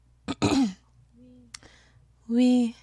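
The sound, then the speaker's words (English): A voice imitates a ghost clearing its throat: a short, rough, raspy burst, a faint click, then a longer voiced hum after a pause, heard alone. “The ghost cleared its throat.”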